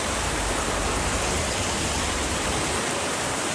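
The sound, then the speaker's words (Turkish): A heavy downpour pounds Osmaniye, turning its roads into ponds: a dense, loud, unbroken hiss of rain with no pauses or other sounds. “Osmaniye'de sağanak yağış yolları göle çevirdi.”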